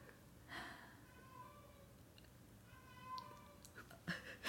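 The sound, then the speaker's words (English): A pet cat's faint meows: a few brief, tonal cries with harmonic overtones over a quiet background. “That is my cat. I really, actually, sincerely hope the microphone picks that up. If it did, I'm leaving it in.”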